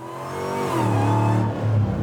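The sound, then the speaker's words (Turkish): An automatic car's engine responds to the accelerator in a very long vehicle, giving a steady mid-pitched rev that swells in loudness over about two seconds and dips briefly near the end. “Aa, gaz verdiğinde tepki veriyor.”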